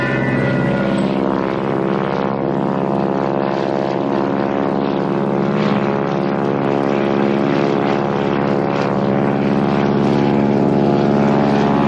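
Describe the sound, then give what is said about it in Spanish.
A light propeller aircraft flies low over a village and passes close to the church, its loud, steady engine drone holding without a break from start to finish. “La avioneta sobrevuela al pueblo y pasa muy cerca de la iglesia.”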